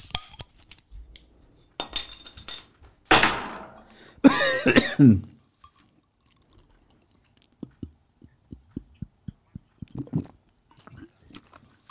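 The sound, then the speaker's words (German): Someone drinking from a glass makes a quick, evenly spaced run of many faint swallowing clicks in otherwise near-quiet surroundings. “Ja, und ich trinke auch mal was.”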